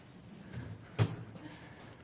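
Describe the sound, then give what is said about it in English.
A door being closed, heard as a single short, soft thud in the middle of an otherwise quiet stretch. “Close the door.”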